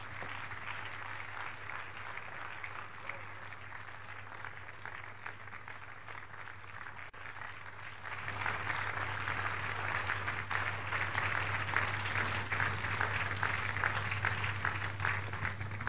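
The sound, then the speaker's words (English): A church audience at a midweek communion service applauds in a long, even patter of clapping that starts moderate and grows fuller about halfway through, over a low steady hum. “Church, put those hands together for Jesus.”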